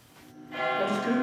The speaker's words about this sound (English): The church bells strike 11 in the morning